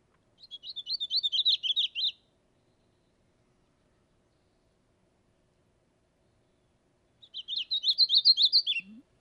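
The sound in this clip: Painted redstart song: two fast phrases of high, rapid chirping notes running up and down, each lasting under two seconds and separated by a long silence.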